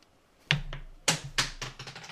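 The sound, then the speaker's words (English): Dice rolled during a tabletop role-playing game, one tumbling off onto the floor: a few sharp clacks, then smaller, quickly fading bouncing taps as the dice settle. “Floor dice. That one escaped, but the other one did not, which is good because it rolled very well.”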